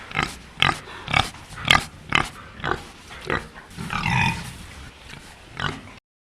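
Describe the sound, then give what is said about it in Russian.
A wild boar grunts in a rhythmic series of short, rough, throaty grunts, broken by a longer drawn-out grunt near the end before the calls trail off. “Кабан.”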